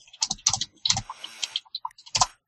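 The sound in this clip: Typing on a computer keyboard produces many quick, light key clicks in irregular bursts, with short pauses between the clusters of keystrokes.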